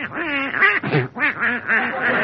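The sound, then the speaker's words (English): Loud, nasal duck quacks come in a rapid, uneven run of many honking calls with short gaps between them and no other sound. “Get out of my bed, you silly-looking duck. Out, out.”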